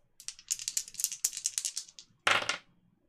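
Dice are rolled during a tabletop role-playing game: a quick run of small, hard rattling clicks, then one louder clattering burst near the end as they land, with no voices.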